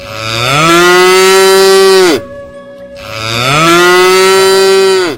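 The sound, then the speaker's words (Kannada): Two long, loud cow moos, each rising at the onset, holding a steady rich tone, then dropping at the close, with a brief quiet gap between them. “ಈ ಎಲ್ಲ ಪ್ರಾಣಿಗಳಲ್ಲಿಯೇ ಮನುಷ್ಯನಿಗೆ ಅತಿ ಆತ್ಮೀಯವಾದ ಪ್ರಾಣಿ ಎಂದರೆ ಆಕಳು ಮತ್ತು ಎತ್ತುಗಳು.”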